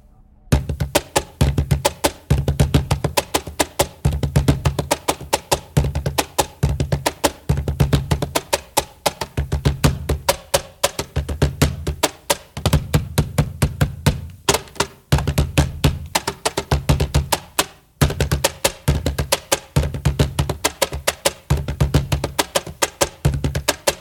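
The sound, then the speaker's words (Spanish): A Peruvian cajón box drum is played solo in coastal Peruvian folk style: steady, dense rhythmic strikes mixing deep bass thumps with sharper slaps, running continuously with only brief gaps. “Instrumentos y ejemplos musicales. Cajón.”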